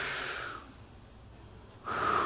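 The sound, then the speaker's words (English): An audience at several locations takes a collective deep breath in together, making a broad, soft hissing rush. It is louder at the start and end, with a quieter stretch between, and no voices. “can we all take a collective deep breath together? Let's do this. Inhale.”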